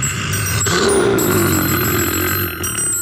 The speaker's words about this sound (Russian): Тут у меня звонок один, очень важный, ответить надо.